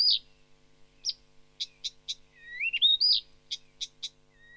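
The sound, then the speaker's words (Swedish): A mimicking songbird at Alnö, Sweden, imitating Asian thrushes sings many short, bright, high notes and whistles, with a longer gliding whistled phrase in the middle, clear against a quiet background. “det sägs att den inte har något eget läte, att den bara kör covers. Att den imiterar asiatiska trastar.”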